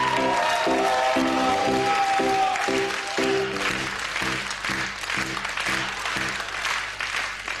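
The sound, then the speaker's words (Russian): Applause fills the hall at an opening event, a steady dense clatter of clapping hands, with a repeating rhythmic tonal pulse beneath it. “Жания, браво. Давайте громче поаплодируем.”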